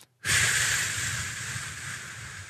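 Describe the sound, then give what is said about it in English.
A long, slow exhale follows a brief silence: a steady, breathy hiss that starts abruptly and fades gently over about two seconds. “So whenever you can elongate your breath, your breathing, your exhale, like,”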